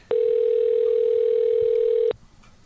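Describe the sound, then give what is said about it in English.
A telephone call ringing out: a single steady ring tone lasting about two seconds, heard alone, before the line goes quiet. “I'm trying to get Tom on the line. Hopefully he'll pick up.”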